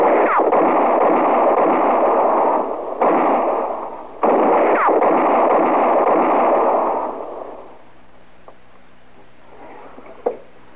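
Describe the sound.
Gunfire erupts from up in the trees during a shootout with men being hunted down. It comes as a loud, sustained roar of shooting for about seven seconds, broken by two short gaps, then dies away before one sharp crack near the end.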